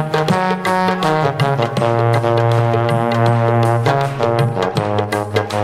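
Wedding band music: loud, sustained reedy melodic tones over a steady low drone, shifting pitch in phrases, with no voices.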